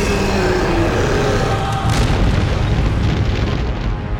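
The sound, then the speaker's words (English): A volcano's summit explodes in a loud, continuous, deep rumbling roar that holds steady throughout, with a brief surge of blast near the middle and no voices. “The top of the volcano exploded, and a massive being rose out of its depths.”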